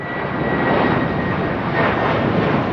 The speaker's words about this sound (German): Als Westberliner können sie aber wenigstens in Tegel ins Flugzeug steigen und wegfliegen. Das geht für die Leute hinter der Mauer in Pankow nicht. Denen bleibt bis 1989 nur der Lärm.